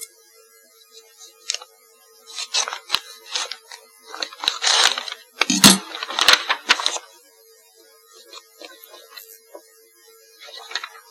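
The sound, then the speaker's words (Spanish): Envelopes tear and crinkle open at a public bid-opening for a construction contract: many dry, crackling paper bursts, busiest in the middle stretch, over a faint steady hum. “Vamos a abrir los sobres. Vamos por orden.”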